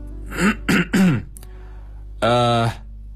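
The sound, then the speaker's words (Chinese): Throat clearing: three quick, rough, voiced bursts close together, then a short pause and a longer, steadier voiced clearing sound, heard alone against a low steady hum. “我站起来清了清嗓子”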